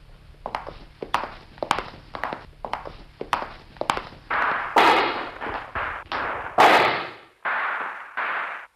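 Gunfire from terrorists shooting in front of a house: many sharp, cracking shots at an irregular pace, the later ones louder and longer, with ringing tails. No voices are heard.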